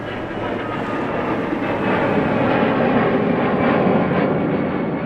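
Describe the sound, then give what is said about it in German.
Loud, steady engine roar of an airplane flying low on the landing approach to Tegel airport in Berlin, building gradually over the first seconds and then holding strong, with no voices. “Tegel entfernt, direkt in der Einflugschneise. 90,8 Dezibel werden hier tagsüber gemessen.”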